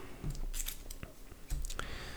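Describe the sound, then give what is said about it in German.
Playing cards being turned over one after another during a tabletop card game, four cards in all, give a few crisp snaps and papery rustles. The quick, dry clicks come at irregular intervals over a soft, continuous shuffling noise, with no talk. “das heißt, wir müssen vier Karten umdrehen. Vier Karten ist viel.”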